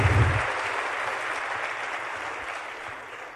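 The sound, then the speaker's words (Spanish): Audience applause for an invited guest at a talk: soft, steady clapping that fades slightly over a few seconds, after a brief low voice at the very start. “Un aplauso para ella, por favor, mi querida Consuelo.”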